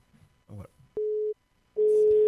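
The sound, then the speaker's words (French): A steady telephone line tone plays while a number is dialled for a call. It comes in two stretches, a short one and then a longer one that runs to the end with some hiss, after a brief faint voice. “Eh, il faut juste qu'on appelle. Le temps de composer le numéro.”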